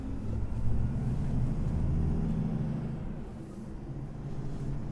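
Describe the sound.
A heavy truck with a 750-horsepower engine and 74 tonnes total weight climbs a 12 percent hill, its engine giving a deep, steady droning rumble that carries on alone without a break.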